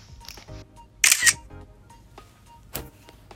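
Phone camera shutter sounding as a photo is taken in Google Keep: a sharp, bright click burst, then a shorter second click a moment later, over a quiet background.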